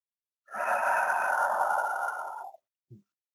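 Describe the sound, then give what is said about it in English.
One long, deep breath taken during a guided meditation at a service: a steady, breathy rush lasting about two seconds that tapers off, followed by a brief soft sound. “So let's turn inward now and take a deep breath. And as we take that deep breath that is the one life inspiring us. So breathe deep.”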